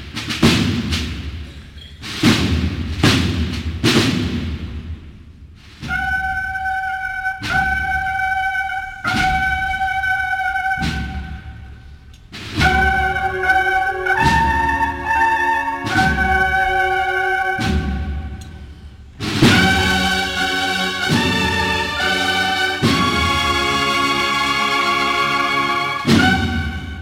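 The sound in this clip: A band plays a Holy Week procession march behind the Borriquita float of the Sagrada Entrada en Jerusalén, with loud sustained brass chords and drumbeats, opening with a few sharp percussive hits before the full band enters.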